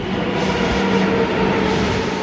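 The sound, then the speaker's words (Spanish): Steady, loud rumble of a Madrid metro train in motion, a continuous roar with humming tones running through it and no break or talk over the whole stretch. “necesitaba de un nuevo medio de transporte. El metro.”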